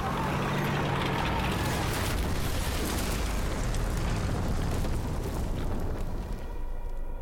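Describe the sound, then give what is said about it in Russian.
A tank running over and crushing an enemy artillery gun makes a loud, continuous roaring crash of dense noise that holds steady for several seconds and eases slightly at the end. “Танк наезжает на орудие и давит его.”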